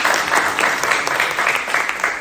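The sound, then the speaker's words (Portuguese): Applause at a meeting: many hands clapping in a steady, dense patter that holds at an even, moderate loudness for about two seconds, with no voices over it. “queria pedir uma salva de palmas para a primeira reunião”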